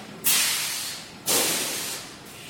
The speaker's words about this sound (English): that's these dome valves opening up to allow the dust to come down from the hopper down into the valve itself, and then it'll be transported with air out across.